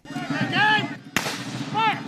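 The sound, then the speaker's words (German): A cannon shot at a historical battle reenactment in a national park clearing in Vincennes, Indiana: a single sharp, booming report cuts in midway, with voices heard before and after it. “Kanonenschläge donnern über die Lichtung im Nationalpark von Vincennes, Indiana”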